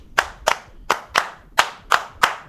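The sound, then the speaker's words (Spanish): Hands clap a candombe rhythm as a greeting, seven crisp, loud claps in an uneven, syncopated pattern, alone with no talk. “Porque así nos saludamos con un toque de candombe cuando nos vemos en los pasillos.”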